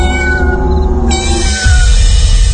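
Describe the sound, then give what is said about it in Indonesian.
A small kitten meowing in a sink: a loud, sustained, high-pitched cry that changes tone partway through and continues to the end. “Siapapun kecuali seekor kucing kecil yang berada di wastafel.”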